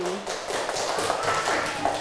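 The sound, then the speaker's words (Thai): Students in a classroom clapping for group one, a continuous patter of claps mixed with children's voices. “ปรบมือให้กลุ่มที่1ด้วยค่ะปรบมืออย่างจริงใจ”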